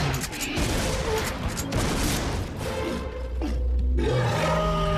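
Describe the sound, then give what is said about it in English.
Gunfire in an audio drama as a giant creature attacks: a dense, loud, continuous burst of shooting and crashing with a low roaring rumble underneath, sustained without pause throughout. “The queen rears to attack, then Cooper opens fire.”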